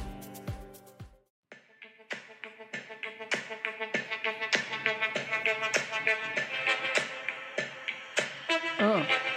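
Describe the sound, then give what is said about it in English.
Intro music for a show with a rhythmic beat of snappy, finger-snap-like hits over tonal chords, starting after a short gap and building steadily in loudness. “Oh my God, where do you find this music?”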